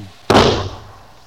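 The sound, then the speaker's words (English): A single gunshot muffled by a blanket wrapped around the gun: one dull, heavy thud that dies away quickly into quiet. “I wrap this blanket around the gun to muffle the sound.”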